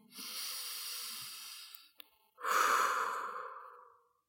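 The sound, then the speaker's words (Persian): Deep breathing by children during a mindfulness breathing meditation for ages 4 to 10: one long, airy breath, a short pause, then a second long breath that comes in louder and fuller before trailing off. “میخوایم یه سه تا نفس عمیق دیگه بکشیم و ببینیم که نفس کشیدن هیچ روش خاصی نداره گاهی آرومه”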